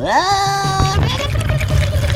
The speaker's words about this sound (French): Donc on va rajouter de l'eau au fur et à mesure.